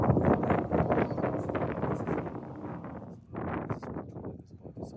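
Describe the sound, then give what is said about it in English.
Wind blows outdoors at an archaeological site in Jordan, buffeting the microphone with loud, rough, continuous rushing gusts that ease slightly partway through before swelling again. “Yeah, there's a lot of wind.”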